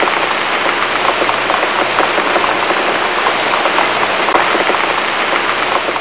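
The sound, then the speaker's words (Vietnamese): Steady rain falls outdoors in a dense, unbroken hiss of countless drops, even in loudness from start to finish, with no voices. “che chung một cái ô vì trời vẫn mưa”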